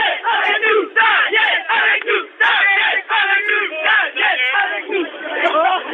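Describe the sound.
Street protesters at a French demonstration against the CPE youth-employment law shout and make noise over a telephone line. Loud, ragged bursts of yelling and cheering come in quick rhythmic waves with short gaps between them.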